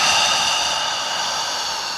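A long inhaled breath as a person lies back during a floor exercise, heard as a steady, airy hiss that lasts about two seconds and fades slightly toward the end, with no talk.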